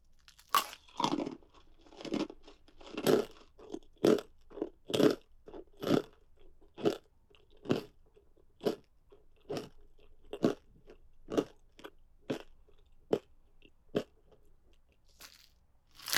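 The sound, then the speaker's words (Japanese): Crunching bites on a femur bone: many loud, brittle cracks and crunches, spaced fairly regularly about a second apart, with quieter chewing between them and no talking. “これがいわゆる大腿骨か。いただきます。”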